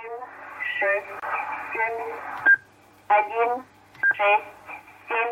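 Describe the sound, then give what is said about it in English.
A Russian shortwave number station broadcasts a woman's voice reading numbers in Russian in short phrases, broken up by a few sharp, brief electronic beeps between the spoken groups. “the Russian number station UVB-76, a Cold War relic, still active, that for decades has broadcast numbers and beeps in support of espionage operations”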